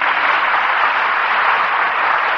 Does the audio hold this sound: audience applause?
yes